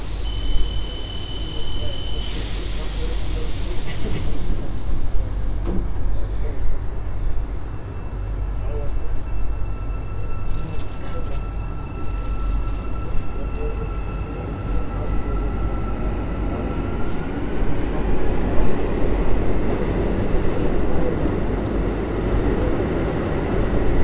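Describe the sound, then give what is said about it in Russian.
A metro train's doors close and the train pulls out. A steady beep tone opens, then a continuous rumbling roar follows, with a motor whine that climbs in pitch as the train departs. “Будьте осторожны, двери закрываются. Следующая станция Жібек жолы.”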